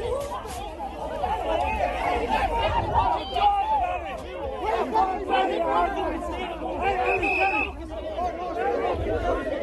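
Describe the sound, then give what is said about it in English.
Crowd chatter fills the ground on a Monday evening at a Division 1 Under-15 hurling championship match between Ballygunner and Nareeshig at Mount Sion in Waterford. The steady babble of many overlapping voices rises and dips slightly. “So that's the sound of the scene at the Division 1 Under 15 Hurling Championship in Waterford on Monday evening between Ballygunner and Nareeshig at Mount Sion.”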